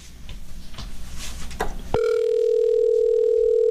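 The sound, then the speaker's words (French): Telephone line tone as a call is placed to a contest winner; a noisy start gives way to a steady, loud tone that holds to the end. “Alors, on appelle la personne gagnante de cette paire de bottes offerte par Sécurité Médic.”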